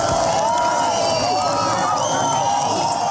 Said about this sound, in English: That was the sound of celebration almost exactly 30 years ago when the Berlin Wall in fact was breached and people began to be able to move freely back and forth between